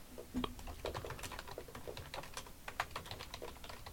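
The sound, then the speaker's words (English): Typing on a computer keyboard produces quiet, rapid, irregular key clicks that patter along steadily without pause. “You got to type it back in.”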